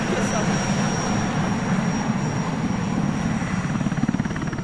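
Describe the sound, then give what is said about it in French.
Loud Puma helicopter arriving during a military operation in northern Mali: a steady, heavy rotor and engine roar with a low, pulsing beat that strengthens toward the end, plus a thin, high turbine whine. “C'est notre hélicoptère qui arrive. Oui, voilà, c'est l'hélicoptère, donc le Puma qui va nous amener sur la zone des opérations.”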